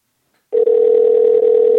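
A telephone tone during a call: one steady, unbroken mid-pitched tone begins after a short silence and holds evenly to the end, loud and alone.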